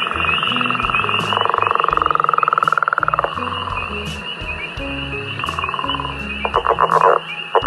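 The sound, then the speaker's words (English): A northern leopard frog from the Calgary area calls with a long, rattling, snore-like pulsed trill. Shorter bursts of rapid clucking pulses follow near the end, all over a steady high-pitched drone. “The northern leopard frog.”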